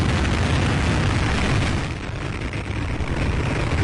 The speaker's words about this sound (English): The Atlas V rocket blasted off before dawn